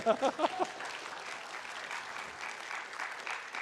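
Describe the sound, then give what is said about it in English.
Audience applause for two young boys, a burst of steady, dense clapping that holds at an even level for a few seconds. “Give him a big hand.”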